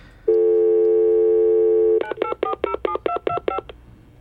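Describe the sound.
A telephone number is dialed: a steady, unbroken dial tone plays for nearly two seconds, then gives way to a quick run of sharp touch-tone keypad beeps.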